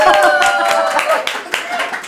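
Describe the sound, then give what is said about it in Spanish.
People applauding in a lively bout of clapping, sharp claps scattered through the stretch and mixed with voices talking and reacting. “Esto es, además, un aplauso.”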